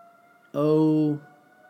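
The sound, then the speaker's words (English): A fire siren from a firehouse in Western Pennsylvania sounds as one brief, steady, loud blast with a rich tone. A faint continuous tone hums before and after it. “You hear that? Do you hear that siren? That siren is iconic to this area.”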